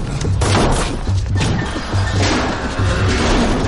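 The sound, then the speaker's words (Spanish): Crashing and thudding as a person stumbles into several barrels in a 2014 science-fiction film scene: a dense run of loud, heavy impacts with booming low thumps, continuing without pause. “Tropieza con varios barriles y llega hasta la calle.”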